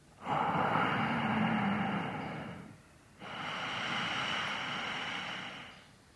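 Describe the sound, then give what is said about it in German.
Ujjayi breathing through the nose: two long, soft hushing breaths with a gentle throat-constricted hiss, the first breath slightly louder, separated by a short quiet gap. “erzeuge den sanft hörbaren Ujjayi-Klang, das ist der sanfte Hauchklang in der Kehle. Als ob du den Buchstaben H erzeugen willst, aber durch die Nase ein- und ausatmest.”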